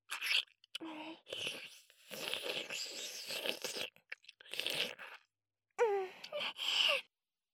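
Sticky flakes are chewed in a series of faint, crunchy mouth sounds spread across several bursts. A few short vocal sounds are mixed in between the bites.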